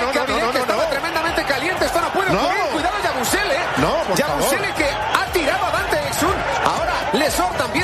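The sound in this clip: A brawl between players on a basketball court in a Madrid arena, in the final minutes of a game: a loud, continuous uproar of many overlapping shouting voices and crowd noise, with no letup.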